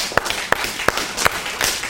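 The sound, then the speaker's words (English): Hand clapping from a Torah class honoring their Rebbe comes as about five sharp, evenly spaced claps in a slow steady rhythm. A noisy background runs underneath the claps. “So we're going to give a round of applause for the Rebbe.”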